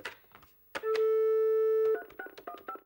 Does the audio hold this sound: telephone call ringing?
yes

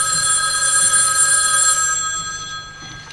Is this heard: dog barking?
no

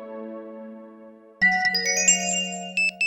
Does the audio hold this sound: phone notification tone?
yes

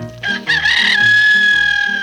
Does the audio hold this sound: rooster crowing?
yes

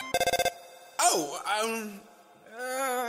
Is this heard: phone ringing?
yes

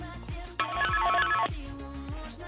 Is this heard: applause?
no

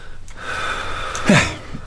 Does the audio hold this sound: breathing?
yes

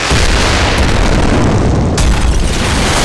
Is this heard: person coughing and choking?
no

